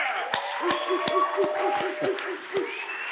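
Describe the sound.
Hand clapping at a Father's Day church service, a series of sharp claps in a fairly even rhythm with a voice continuing over them.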